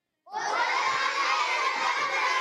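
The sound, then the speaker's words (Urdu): A group of children standing at a tree-planting gathering shout together in unison, a loud, sustained chorus of young voices that bursts in suddenly after a moment of silence and holds through to the end. “چلیں سب بچے کھڑے ہو کر, بچیاں بھی کھڑے ہو کے, ٹھیک ہے, چلیں لگائیے بھائی نعرہ.”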